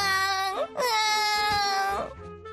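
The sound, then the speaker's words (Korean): A child cries loudly in two long, high, wailing bursts separated by a brief gasp, then trails off. “그런데 바로 그 순간 집안에서 아이의 우렁찬 울음소리가 터져 나오는데,”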